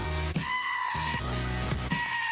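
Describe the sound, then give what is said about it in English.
Goats bleat loudly in a few drawn-out, wavering cries with strong harmonic overtones, one following close on another with no voices in between. “Listen to the goats. Goat probably tried to warn us about Christy Noem, too.”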